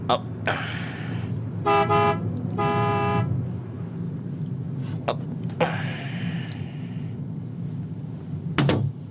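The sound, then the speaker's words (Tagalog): Car horn honking by a roadside: two honks, the first short and the second longer, over steady traffic noise, followed by scattered clicks and thumps. “Businahan ko siya.”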